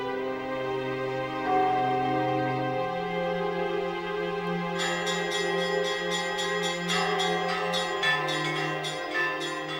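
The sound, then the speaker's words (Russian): Church bells ring in a monastery bell tower. Deep bells hold sustained, overlapping tones, and partway through smaller bells join with a rapid, rhythmic series of bright strikes. “А так каждый день по два раза он поднимался, звонил, а там уже по полному чину звонят. Это не просто так. Колокола-то серьезные там висят.”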